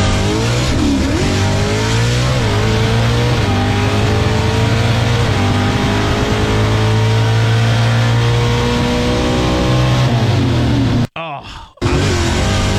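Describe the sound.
Pro stock drag racing car launching off the line: a loud, sustained, high-revving engine roar with shifting pitch, broken by a brief dropout near the end.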